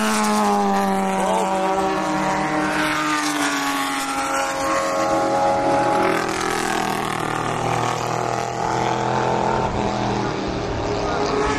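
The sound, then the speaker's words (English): A race car, a 1994 Chevy Camaro, roars along a racetrack straightaway. The loud engine drone runs continuously with a sweeping, shifting pitch as the car speeds by. “Like that 156 was a 1994 Chevy Camaro. I wouldn't know at a glance what it was. Not from as they speed by anymore.”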